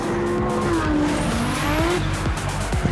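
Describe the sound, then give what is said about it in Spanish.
Cars race in an illegal street race, their engines whining loudly and continuously with shifting pitch. “La típica carrerica de coches ilegales.”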